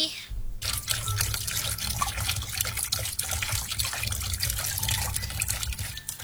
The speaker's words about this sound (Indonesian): masih suka menyisakan air minum, membiarkan air mengalir tanpa guna, hura-hura membiarkan air terbuang begitu saja.